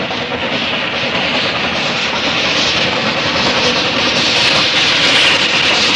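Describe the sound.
A steam train moves along with a loud, continuous hissing rumble that stays even throughout, with no breaks or voices.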